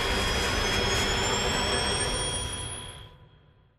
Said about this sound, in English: as the plane is set to make impact with the mountainside, the pilot's trying to gain altitude, the whine of the engines is rising,